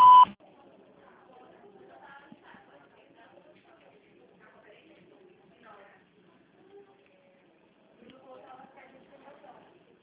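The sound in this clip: A voicemail beep tone sounds once at the start, short, loud and steady, then gives way to faint, indistinct voices.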